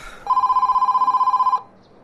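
Telephone ringing: a single bright ring burst of rapidly pulsing, warbling tones lasts just over a second before cutting off into quiet, with no voices.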